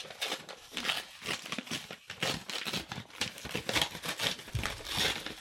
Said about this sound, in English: Let's open up the old envelope here.